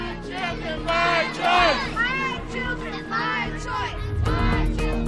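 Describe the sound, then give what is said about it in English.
Demonstrators at the state capitol protest Governor Newsom's COVID-19 vaccine mandate, a loud crowd of many voices shouting and chanting in rising, overlapping swells. “the voices of demonstrators who took to the state's capital this past Monday to signal their strong opposition to Governor Newsom's recently announced COVID-19 vaccine mandate”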